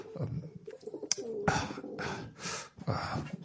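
Pigeons cooing in a few low, soft, rounded calls separated by short pauses, with some broader rustling bursts between them.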